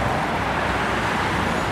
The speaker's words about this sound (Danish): Så kommer der lige over en lastbil her.